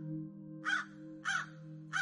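Crows cawing, part of a flock gathered around a grave pit: three harsh, evenly spaced caws roughly half a second apart, over a steady low hum.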